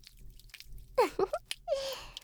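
Lotion being rubbed on makes faint wet, slippery squishing: a few short squelches followed by a longer slick smear.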